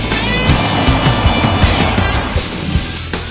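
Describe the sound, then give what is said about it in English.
A Jeep speeds down a snow-covered road: loud, rough engine and tyre noise runs throughout, broken by a few sharp bumps, with no voices. “Driving a Jeep, Chris speeds down a snow-covered road and skids to a stop in front of them.”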